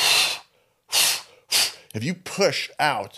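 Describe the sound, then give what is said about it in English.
Forceful exhales of the kind used in sprint breathing when carbon dioxide builds up: three sharp, loud bursts of breath with short pauses between, followed by a voice speaking briefly. “if your CO2 is building up and you use a forceful exhale, I'll get away from the mic.”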